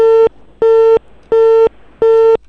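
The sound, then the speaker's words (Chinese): Telephone busy tone after a call is hung up: four evenly spaced, steady, loud beeps of the same pitch, each lasting about a third of a second, heard alone. “校长挂电话了”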